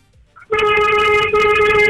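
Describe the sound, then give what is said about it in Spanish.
A car horn honking in long, steady blasts, a loud bright tone rich in overtones that breaks off briefly and resumes at the same pitch, with no voices. “¡Toca el pito, mi amor!”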